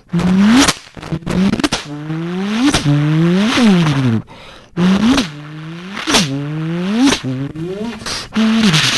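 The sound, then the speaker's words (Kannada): A human voice imitates a Formula 1 race car engine with a series of loud, buzzing revving whines that sweep up and down in pitch, separated by short breaks. “ಇನ್ನೊಂದು ಗಾಡಿ formula 1, ಇದರ ಶಬ್ದವು”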